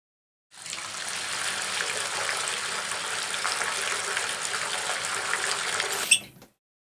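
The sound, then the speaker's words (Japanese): Running tap water while someone washes their face: a steady, full hiss of water that starts abruptly and flows evenly for about six seconds. It stops with a small knock right at the end. “顔洗ってくる。”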